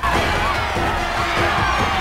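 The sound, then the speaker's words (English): A crowd of cartoon lemurs cheers in a dense, continuous din of overlapping whoops and shouts that stays loud throughout. “With a wild look in his eye, Alex mounts a rock and poses for the crowds of cheering lemurs.”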